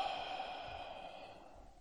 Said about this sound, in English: nice deep inhale through the nose. Exhaling out through the mouth.